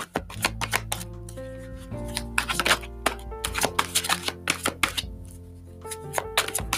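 Romance cards are shuffled in rapid runs of papery snaps and flutters in uneven bursts, over soft sustained music.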